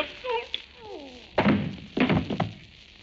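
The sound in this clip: Heavy thuds of a person struck with the butt of a gun: a brief vocal sound, then two solid, loud blows and a lighter knock after them.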